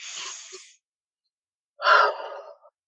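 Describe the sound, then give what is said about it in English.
A deep breath drawn in and then let out: a soft, airy inhale, a pause of silence, then a louder, fuller exhale that trails off. “So take a deep breath in and out.”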